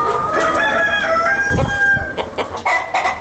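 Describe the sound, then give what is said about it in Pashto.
Chickens cluck and a rooster crows at a poultry farm of roughly four hundred birds in Ghazni. Dense, continuous flock chatter runs throughout, with sharp, high calls layered over it and no talk. “د غزنی ښار په غیبی کلندر سیمه کې د لږ ډیر څلور سو چرګو چرګانو فارم”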